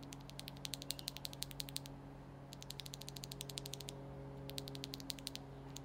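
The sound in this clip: Mechanical keyboard switches from a Razer keyboard, a stock pre-lubed switch compared with a modded one, are pressed in three quick runs of crisp, light clicks. The clicks are faint over a steady low hum, with no talking.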